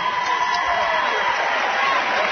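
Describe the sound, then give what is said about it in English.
Crowd applause and cheering for a high school basketball team receiving its semifinalist trophy at a Sweet 16 tournament ceremony, a dense, steady wash of clapping with voices mixed in throughout. “Great Crossing team down the way applauding and sticking around, which is what you do.”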